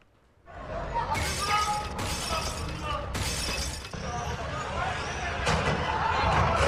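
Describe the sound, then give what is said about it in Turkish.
An axe smashes shop window glass, with a few sharp, bright shattering crashes over a loud, continuous noisy bed. Voices mingle with the breaking glass. “Sivas'ta bir kişi arasında anlaşmazlık olan esnafın dükkanının camını kırdı.”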